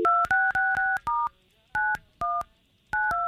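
Telephone keypad tones as a number is dialed to call someone. A quick run of bright, even beeps comes first, then after a pause a few more tones follow in spaced groups.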